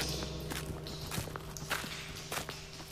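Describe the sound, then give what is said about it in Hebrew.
Footsteps of a group walking through a tunnel, a steady run of many soft, regular steps over a constant low background hum. “כבר יותר משעה שאנו צועדים כאן במנהרה.”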